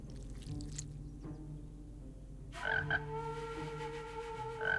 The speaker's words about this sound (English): As he and Tom lock gazes, the frog's rubbery chin puffs in and out